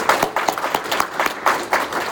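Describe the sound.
Audience applause welcoming a professor before a history lecture: steady, dense clapping from many hands at an even level throughout, with no voices.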